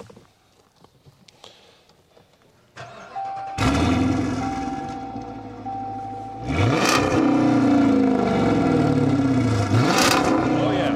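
A Hemi V8 police car engine, its exhaust altered by removing resonators, fires up with a loud rumbling roar and then revs hard twice in sharp, swelling bursts over a steady idle.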